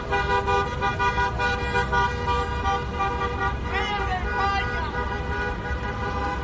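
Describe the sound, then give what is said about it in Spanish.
Car horns honk without pause as Madrid football fans celebrate in the street at Plaza de Cibeles. Several steady, overlapping horn tones run throughout, mixed with the noise of traffic and voices. “Ese fue el sonido de la afición del Real Madrid en su mítica plaza de Cibeles en el centro de la capital.”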